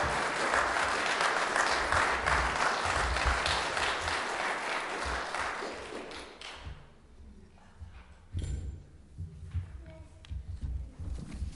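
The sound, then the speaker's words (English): An audience at a church service applauds the children in a loud, dense burst of clapping that lasts about six seconds and then fades out. A few softer knocks and rustles follow. “And I think it would be great if we could just give them a round of applause.”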